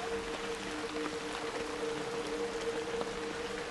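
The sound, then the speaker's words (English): Rain falls steadily onto the ground at night, a dense, even hiss of drops that keeps a constant level throughout, with no voices. “Night falls. Rain falls down, soaking the ground.”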